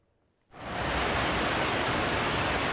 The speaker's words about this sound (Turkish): Arkadaşlar, şehir merkezi burası. Bayağı kötü. Şuraya yanaşamıyorum. Orada insanlar var. Dereler taştı, caddeler göle döndü. Araçlar sürüklendi,